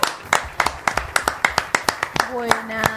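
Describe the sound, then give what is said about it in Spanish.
Audience applause for a guest being introduced at an evening show, heard as steady rhythmic clapping at about three claps per second, with a voice briefly speaking near the end. “Fuerte el aplauso. Fuerte el aplauso.”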